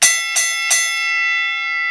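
A boxing ring bell clangs three times in quick succession, each strike bright and metallic, then its ringing tone hangs on and slowly fades, with no other sound.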